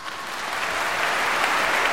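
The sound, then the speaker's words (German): Crowd applause of the kind given after a concert or stage performance, a dense, steady wash of clapping that grows slightly louder over the first second and then holds. “Es beginnt mit anschwellendem Applaus, in den man begeistert einstimmt.”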